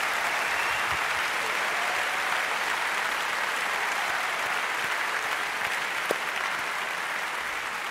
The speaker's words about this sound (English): So and a big applause.